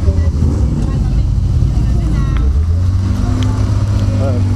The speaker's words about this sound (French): Ça, c'est une Porsche. une cobra derrière.